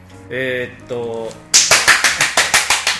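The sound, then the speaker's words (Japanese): Hand clapping during a curry ramen taste-test review: a short voiced sound, then a quick run of sharp, bright claps in an even rhythm to the end. “はい、もう拍手してます”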